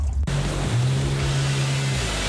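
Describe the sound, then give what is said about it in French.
Yamaha and Sea-Doo personal watercraft engines drone at a steady low pitch over a loud, continuous rush of water spray that holds throughout. “Cet été, vivez l'adrénaline sur l'eau avec les motomarines Yamaha et Sea-Doo chez Motorsport du Cuivre.”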